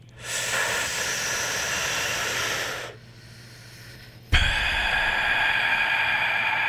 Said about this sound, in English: Big breath in.